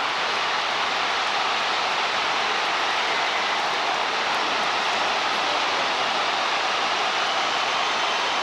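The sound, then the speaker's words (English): A stadium crowd roars after a stunning long-range football goal by Cape Verde, a loud, dense, continuous wall of noise that holds steady throughout. “You can really hear the thrill and even the shock of the crowd.”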